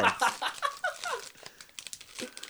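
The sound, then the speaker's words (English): A foil Pokémon trading card pack is torn open by hand, giving a quick run of crinkly tearing and crumpling foil in irregular bursts. Fairly quiet and close. “But I can open a pack of Pokemon cards yeah. real quick.”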